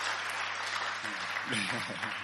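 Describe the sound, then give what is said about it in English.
Church audience clapping for the worship team during a service, a faint, steady patter of hands that continues as a man speaks over it. “Give another big hand clap to the worship team.”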